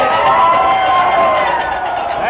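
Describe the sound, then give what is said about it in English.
An audience cheers and applauds to welcome a featured country singer and guitarist onstage at a Grand Ole Opry show, a loud, steady wash of crowd noise throughout. “So let's give a great big welcome, a big hand to Bill Drake.”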